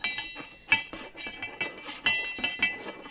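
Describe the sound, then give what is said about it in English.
A spoon stirs cocktail ingredients in a glass, making many light, bright clinks in an uneven, quick rhythm that runs through the whole short stretch. “Add the ingredients and stir.”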